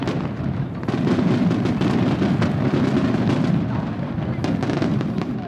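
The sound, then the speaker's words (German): Firecrackers and rockets exploding over the Bay of Bari in southern Italy: a loud, continuous barrage of deep rumbling booms and sharp cracks, densely packed with no gaps. “da knallen plötzlich Böller und Raketen in der Bucht von Bari. Ein ohrenbetäubender Lärm ist das. Der Krach lässt die Fenster noch am anderen Ende der Bucht erzittern.”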